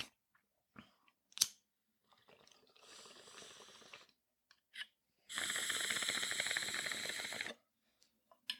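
A vape loaded with heavy indica cannabis is drawn on and exhaled: a softer hissing pull of about two seconds, then a louder, longer breathy exhale. A few small clicks sit between and around the breaths.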